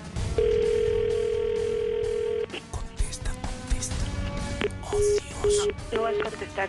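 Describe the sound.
A telephone call placed while redialing a cell phone: a long steady tone, then a series of short repeated beeps, with faint voices in the background.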